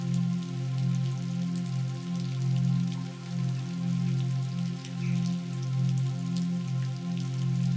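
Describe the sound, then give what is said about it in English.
Steady rainfall with a soft, even patter of drops over a low sustained hum that slowly swells and fades, continuous and calm with no voices. “You close your eyes and listen to the rainfall.”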